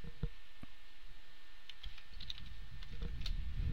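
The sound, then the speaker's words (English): Code typed on a computer keyboard: a few sparse, faint key clicks spread across a quiet stretch, with a soft low rumble toward the end. “Now we have our function that's set up. This is very simple. We just type in channel dot stop.”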